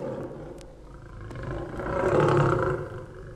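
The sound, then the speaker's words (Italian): A lion roars, a deep, rough rumble that swells louder toward the end before easing off slightly. “Avresti dunque potuto udire per primo il ruggito del re degli animali, il leone,”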